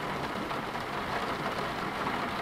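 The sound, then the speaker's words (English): Steady rain falls in the mountains as a continuous, even hiss of drops with no pauses, heard on its own without voices. “In the mountains, it's raining.”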